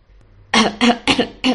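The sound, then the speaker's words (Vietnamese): Repeated coughing from someone choking on saliva: four sharp, rhythmic coughs in quick succession, loud and alone, after a faint throat sound. “Tống Tuân ở bên cạnh bị mấy lời vuốt mông ngựa bất thình lình này của nàng làm cho sặc nước miếng, ho liên tục.”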